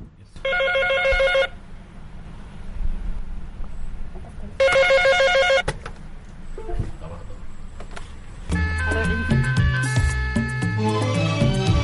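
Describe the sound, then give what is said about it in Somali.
A landline telephone rings in a room full of landline phones, two bright, trilling ring bursts about a second long each, roughly four seconds apart, with other sound following later. “Sumadda ugu horreysa ee qolkan ayaa ah telefoono fara badan oo kuwa laynka ah. Waxaana markiiba soo dhacay intii aan qolka ku jiray mid ka mid a telefoonada.”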